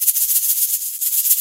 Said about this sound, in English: And some edge shakers. It sounds like this.